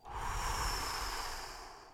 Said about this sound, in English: So take a big inhale and blow,